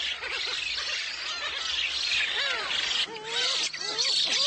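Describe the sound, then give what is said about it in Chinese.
Newly hatched black-faced spoonbill chicks clamor on an island near Yeonpyeong in May, with a steady bed of noisy chatter overlaid by repeated thin, arching squeals that grow busier in the second half. “新生雏鸟们吵得不可开交”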